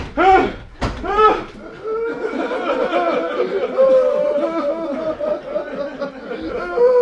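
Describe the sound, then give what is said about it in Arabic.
A door is forced open in an Egyptian radio drama of the Arabian Nights tales, with a hard banging thud early on, followed by voices talking. “افتحوا الباب، افتحهم. هو الباب جامد كده ليه؟”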